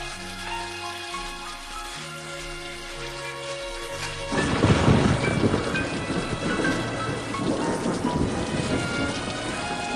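Heavy rain pours steadily as a dense, loud hiss. It begins abruptly about four seconds in, after a stretch of music with low sustained notes that keeps going faintly beneath the downpour.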